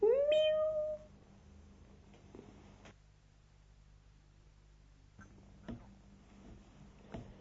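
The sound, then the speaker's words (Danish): A kitten gives one short, high meow with a rising and falling pitch at the start, then only a faint, steady background hiss with a few soft clicks. “Og lille kattemus, den siger,”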